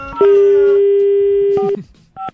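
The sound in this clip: Telephone keypad tones from buttons being pressed: a steady single-pitched line tone holds for about a second and a half, then short beeping keypad tones follow, ending in one brief two-note beep after a pause.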